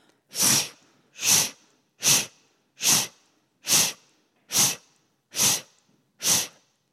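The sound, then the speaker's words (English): Sharp exhales pushed out through the mouth after a deep nasal inhale in a breathing exercise: eight short, forceful, evenly spaced puffs of breath of equal strength, each a crisp airy burst followed by a brief silence. “And then on the exhale, you're going to do 5 equal exhales through the mouth.”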